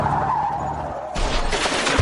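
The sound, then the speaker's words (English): A car's tires skid in a sound effect of a vehicle hitting a deer, a steady screech that turns into a louder, rougher burst of noise about halfway through. “Congratulations, you just met a deer with your bumper.”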